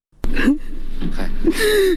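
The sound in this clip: A grieving father in Nangarhar, whose three sons were killed by unknown gunmen, cries and wails. A single strained voice gasps and sobs, then breaks into a louder, high wail near the end.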